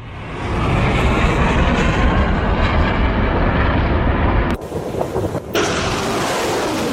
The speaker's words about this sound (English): The sounds of missiles being fired in the port city of Mocha, where the Iranian-backed Houthis have just taken control.